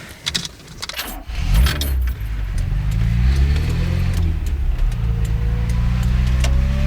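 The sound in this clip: Keys jangle briefly, then a car engine starts and revs. Its low rumble climbs and settles into a steady, fairly loud hum as the car drives off, with no talk.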